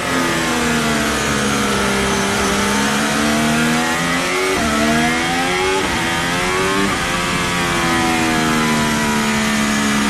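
Formula 1 race car engine revving hard as the car drives away on track, a loud, continuous high-pitched whine that climbs steadily, broken by a few abrupt pitch drops like gear shifts.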